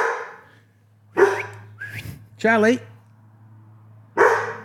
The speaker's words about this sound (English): So barking at ghosts again.